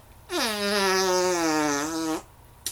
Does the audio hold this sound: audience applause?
no